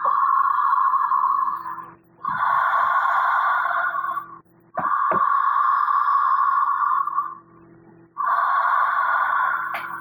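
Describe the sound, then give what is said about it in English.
Slow, deliberate breaths through the mouth during a relaxation exercise, four long airy rushes of air with short pauses between them, steady and fairly loud with no talking, over a faint low hum. “I'm going to breathe through my mouth. And the breath sounds like.”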